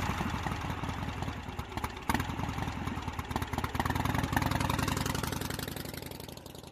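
A motorcycle engine idles with a rapid, even chugging throb, steady and fairly loud on its own, easing off slightly toward the end.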